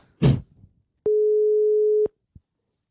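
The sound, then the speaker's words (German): A telephone line tone sounds as a call is placed: one clean electronic beep lasts about a second. A short burst of noise comes before it and a faint click follows. “So, also jetzt müssen wir anrufen.”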